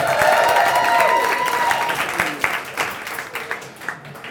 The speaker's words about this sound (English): Give it up for Richard Crook and Ajit Tripathi.